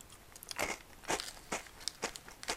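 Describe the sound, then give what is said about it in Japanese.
Someone bites into a crunchy Fujiya Home Pie puff pastry biscuit, making a series of quiet, crisp crunches at a steady chewing pace. “ちょっと今ホームパイ食べてる”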